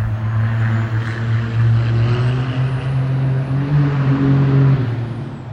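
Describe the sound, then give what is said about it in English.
A fast car passing by, its engine a loud, steady droning hum with a tonal whine that holds for several seconds before easing off at the end. “letting that fast car pass”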